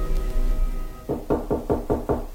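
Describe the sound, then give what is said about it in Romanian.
Six sharp, evenly spaced knocks on a door at a lawyer's house in the evening, following a low, steady droning background. “Cine bate?”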